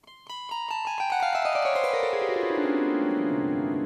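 A chord zither is strummed downward across its strings, giving a quick cascade of plucked metallic notes that falls steadily in pitch, then rings together as a bright, sustained shimmering chord.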